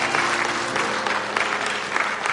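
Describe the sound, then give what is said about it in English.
Church audience clapping hands in praise during a worship service, a dense, steady wash of many hands applauding together at an even level for the whole stretch, with no voices standing out. “Come on, let's give God a hand clap of praise in his house.”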